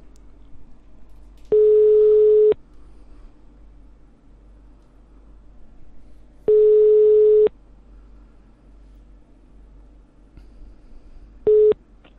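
Ringback tone heard while a phone call is being placed: two steady one-second tones about five seconds apart, then a third cut short, loud over a low constant hum, with no talk.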